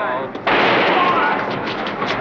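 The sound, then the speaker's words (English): A gunshot fired by a gunman in a crowded basement as a prisoner is escorted to a car among reporters: one sharp, loud crack, then a sustained roar of crowd noise and shouting. “He's been shot. He's been shot.”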